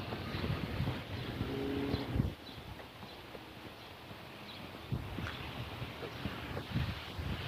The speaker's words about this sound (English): I'm gonna walk under a cottonwood tree. You got the wind blowing, you can probably hear it through the trees.